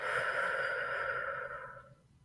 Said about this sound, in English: Close your eyes and take a deep breath. And exhale.